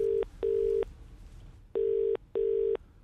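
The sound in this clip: A telephone call rings through as a ringback tone in paired bursts: two short steady beeps, a longer silence, then another pair, all at one unchanging pitch.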